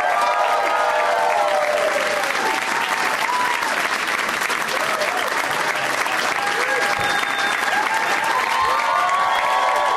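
Loud audience applause with scattered cheers welcoming three returning guests onto a show, continuous and full from start to finish.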